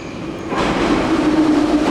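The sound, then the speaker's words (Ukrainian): An underground metro train runs through Kharkiv near Derzhprom station. A low rumble swells suddenly into a loud, steady roar, and a faint, thin wheel squeal rides above it. “Щотижня ми вирушаємо у подорож. Інколи це кілька станцій під землею по Харкову.”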